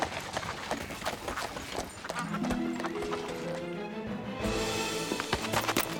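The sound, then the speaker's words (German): Clip-clop hoofbeats of a horse pulling an empty carriage as it drives away, a steady run of hoof strikes at moderate loudness with a sustained tonal layer running beneath from about the midpoint. “Zufrieden und mit leerer Kutsche setzte er seinen Weg fort.”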